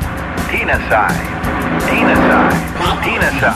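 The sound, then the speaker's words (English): A car drives fast with a loud, continuous engine roar, overlaid by whining, squealing tones that swell and ebb as it races. “You do it with an automobile.”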